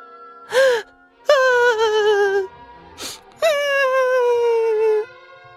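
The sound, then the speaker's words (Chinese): A voice imitating a mother squirrel crying: a short gasping sob, then a long wavering wail falling in pitch, repeated twice, loud and alone. “小松鼠急了：“ 妈妈，不能哭，哭了会变小的。” 松鼠妈妈还是一个劲儿的哭。”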